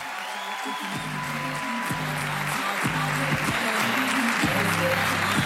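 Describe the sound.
Audience applauding a comedian as she is welcomed to the stage, with steady, dense clapping from a crowd that continues without a break.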